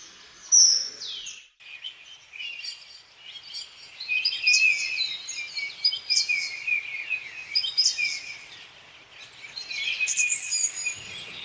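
Birdsong in a forest near clean rivers in the Roztocze region: many high chirps and trills repeat throughout at a fairly faint level, with no voices.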